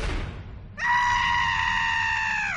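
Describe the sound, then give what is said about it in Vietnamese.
An agonized scream from a young man: one loud, high-pitched cry that starts after a brief quiet moment and is held steadily for almost two seconds, sagging slightly in pitch as it ends. “cũng có một tiếng hét thê lương khôn cùng, tựa như không phải tiếng hét của con người có thể làm ra được, đột nhiên phát ra từ trong miệng của tên thanh niên này”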